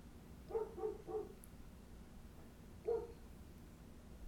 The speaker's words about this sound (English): we got dogs barking outside